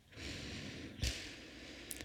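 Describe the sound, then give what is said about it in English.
A faint, soft inhaled breath during a guided meditation, a long gentle airy hiss that swells and holds for nearly two seconds, followed by a slight catch. “returning your awareness to your breath, let's breathe in”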